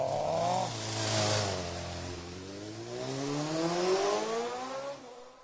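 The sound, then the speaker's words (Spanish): A motorcycle starts off and rides away, its engine note dipping briefly and then revving up with a climbing pitch, holding steady and loud without any talk. “¡Ay, qué divina la moto! Vení, vamos a dar una vuelta. Y arrancaron.”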